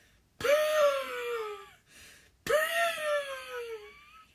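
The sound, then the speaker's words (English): A voice imitates the wheezing of the Crawfordville monster with two drawn-out, raspy wailing breaths. Each slides downward in pitch, and a short pause separates them. “But, he said it was a wheezing. Okay, ready? Mm-hmm. Let's hear it.”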